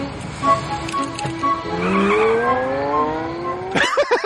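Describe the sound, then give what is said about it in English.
A car drives away. Its engine revs as it accelerates, with the pitch climbing steadily for a few seconds before the sound cuts off abruptly. “I love how Jeff and Lester just drive away when they realize they've screwed up.”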